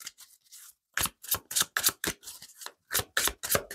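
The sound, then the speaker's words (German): Lenormand cards are handled and drawn from a deck in rapid crisp papery flicks and slaps. Many short bursts follow in quick, fairly regular succession. “Nehmen wir noch drei Lenormand-Karten raus.”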